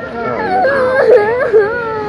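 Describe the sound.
A child crying in wavering, whimpering sobs that rise and dip in pitch, with a sharper cry near the end, while adult voices are heard around it.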